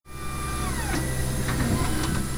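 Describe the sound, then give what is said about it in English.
Lab machines whir steadily while processing slides for pathologists at a State Department of Agriculture animal disease testing lab in Raleigh. A constant mechanical hum carries a falling whine early on and a few light clicks. “At a State Department of Agriculture lab in Raleigh, Dr. James Trebus oversees testing on dead farm and other animals to check for illnesses and diseases. Machines here process slides for pathologists to review.”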